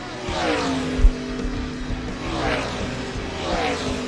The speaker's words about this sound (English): time to crank it up. Start your engine!